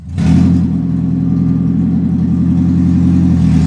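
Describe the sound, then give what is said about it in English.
A 2011 Toyota Prius engine runs without its catalytic converter, starting abruptly into a loud, rough, deep rumble that holds steady and continuous throughout. “This 2011 Prius is missing its catalytic converter.”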